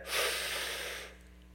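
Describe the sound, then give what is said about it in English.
A big deep breath taken by a speaker during a sermon: one long, airy rush of breath lasting about a second, swelling quickly and fading away over a faint, steady low hum. “Big deep breath.”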